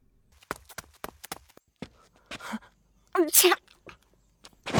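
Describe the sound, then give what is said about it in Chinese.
A man's sneeze in a dramatized story, a sudden noisy voiced burst that stands out after a scattered run of quiet sharp taps and clicks. “展昭突然一个喷嚏，伸手揉鼻子”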